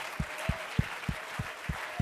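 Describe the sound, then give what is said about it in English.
A church audience claps in unison, seven sharp, evenly spaced claps in a steady beat with a faint sustained tone beneath. “Let's clap our hands and lift up our voice and magnify Him.”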